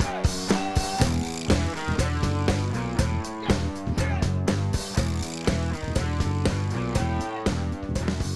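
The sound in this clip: Loose teeth rattle in an animal jawbone held by the chin and struck against a hand, giving buzzing ratchet-like clatters repeated in rhythm within loud rock music.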